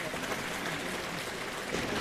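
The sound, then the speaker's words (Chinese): Audience applause at a traditional Chinese crosstalk evening show: a steady, soft wash of many hands clapping, with voices in the background. “谢谢大家的掌声。”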